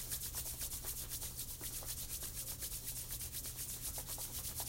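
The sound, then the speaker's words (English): Hands rubbed briskly together, making many rapid, even swishing strokes in a steady rhythm. The rubbing is quiet, over a constant low hum. “Rubbing the hands nice and hot.”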